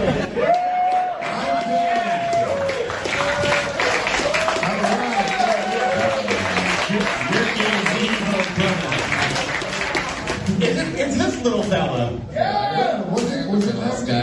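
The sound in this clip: Crowd applause and cheering at a stand-up comedy show as an audience member is called up to perform, a dense, continuous roar of clapping with whoops and loud voices over it throughout.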